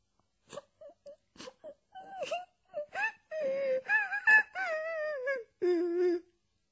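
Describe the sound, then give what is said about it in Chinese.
Crying from someone leaning against a wooden crate on a dock. It starts as a few short, quiet sobs and builds into long, loud, wavering wails. “阿妮卡就再也憋不住了，他靠在码头上的一只木箱上哭了起来。开头还听不到声音，后来声音越来越大。”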